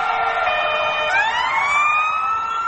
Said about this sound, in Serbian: Prodorne sirene konvoja crvenih vozila sa brojnom vatrogasnom ekipom koja grabi ka lokaciji gdje je izbila vatra